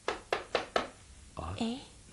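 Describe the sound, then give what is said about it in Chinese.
Four sharp knocks on a door, evenly spaced in quick succession, followed by a brief voice. “奇了，在这个时候还有什么人来敲门呢？”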